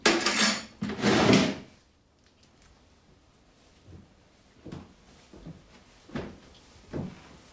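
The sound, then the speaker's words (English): A kitchen table drawer is pulled open with two loud wooden scraping slides, followed by several fainter knocks and clicks. “opens the drawer and takes out a long, thin filleting knife.”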